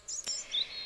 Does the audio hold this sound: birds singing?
yes